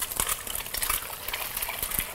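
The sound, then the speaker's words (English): Eggs sizzle as they are cracked into a hot pan of sesame oil for fried rice, a steady hissing crackle with a few sharper pops rising out of the continuous fry noise. “Crack the eggs in. Very simple. As many eggs as you want.”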